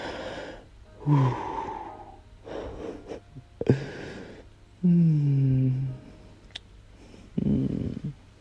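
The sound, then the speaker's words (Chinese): Slow breathing close up: several long, drawn-out breaths separated by quiet pauses. Some breaths are soft, airy exhales and others are voiced, sigh-like. “贴贴肚子，我们共同呼吸。”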